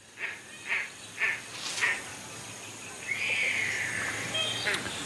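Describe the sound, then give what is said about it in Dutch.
Calls of a great crested grebe, a New Zealand bird: four short, harsh croaking notes in an even rhythm, then a longer, drawn-out rasping call. “Met een verpletterende hoeveelheid stemmen won dit dier de Nieuw-Zeelandse vogel van de eeuwverkiezing. De putekitteke.”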